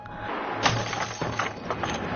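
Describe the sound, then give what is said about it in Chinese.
A hammer smashes a door lock with one sharp, cracking blow, followed by a few lighter knocks and rattles of the broken metal. “月亮直接找来青蒿，一锤子把锁砸”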